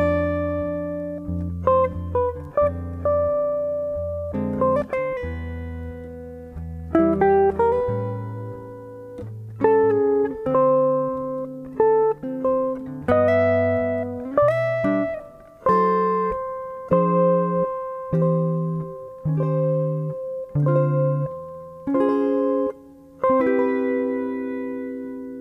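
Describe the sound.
Jazz-style chord progression of sustained, ringing chords moving through D minor 7 and D-flat major 7 and resolving on a C major 7 with the major seventh on top; chords change at a steady pace, with no voices.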